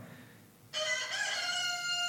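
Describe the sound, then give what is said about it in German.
A rooster crows on a farm. After a brief hush, a loud, bright, strongly harmonic crow starts and carries on to the end. “Der Hahn.”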